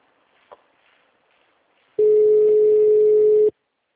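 A single steady telephone tone sounds for about a second and a half while a hospital's automated phone system transfers a call, preceded by a faint click.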